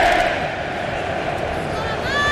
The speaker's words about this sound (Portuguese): E os Vikings voltam a fazer o seu espetáculo nas arquibancadas em Dallas. E a remada e aquele grito, né?